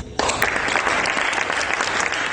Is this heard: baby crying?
no